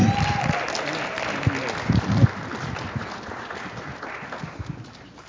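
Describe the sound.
Congregation applause at a church service welcoming a pastor, a steady patter of clapping with a few louder claps standing out and voices mixed in underneath.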